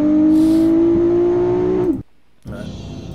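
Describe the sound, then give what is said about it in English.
Revving engine of a 1,500 horsepower GTR holds a loud, steady droning tone for about two seconds, then cuts out abruptly; after a short silent gap, a rougher, lower engine noise returns. “You think GTRs sound like trash? Let's say 1,500 horsepower GTR.”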